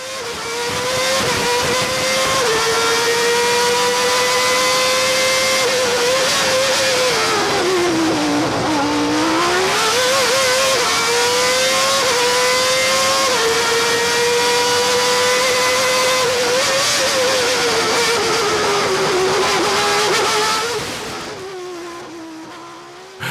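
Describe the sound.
An older Formula One race car engine wails loudly and continuously, its pitch stepping as gears change. It drops sharply mid-clip, climbs again, holds a high scream, then cuts off near the end, with no voices.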